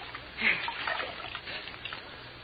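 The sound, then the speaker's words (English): Water splashing and trickling as something is washed out by hand, a soft, continuous wet swishing with one brief, louder splash near the start. “Oh, Blackie, wait a minute, will you? I've just been washing out something.”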